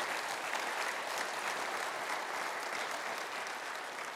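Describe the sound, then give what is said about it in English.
Audience applause during a church service for the LWML women's group, with many hands clapping in a dense, even patter. The sound holds steady and fairly loud for a few seconds without any voices. “our LWML, would you stand up, please, just for a second? Awesome. Would you give them a hand?”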